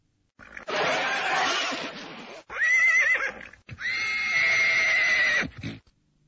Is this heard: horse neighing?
yes